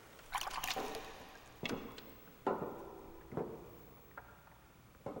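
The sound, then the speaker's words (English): Water splashing and dripping as samples are taken from a boat on an underground reservoir: a few separate, faint sloshing bursts with trickling between them. “Joseph takes water samples from a boat in an underground reservoir.”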